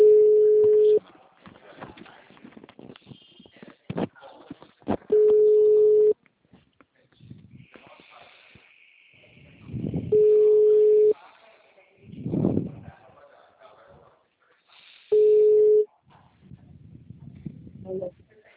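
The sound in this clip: Telephone ringback tone as a call rings out: four steady, low one-second tones spaced about five seconds apart, with voices talking quietly in the gaps between them.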